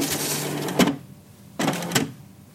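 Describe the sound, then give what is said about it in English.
Mechanical whirring and clatter of a printer-like ballot voting machine feeding in a paper ballot, with a bag attached at the back to collect it. Two separate bursts of motor and feed noise, with no talking. “Its design looks more like a printer with a duffel bag attached to the back that collects your paper ballot.”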